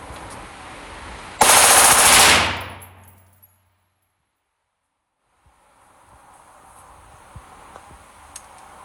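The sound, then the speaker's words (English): A rifle built as an assault weapon firing a short burst on full automatic, a loud rapid stream of shots lasting about a second, then a fading ring into a quiet background. “Now watch this. I go all the way to full auto.”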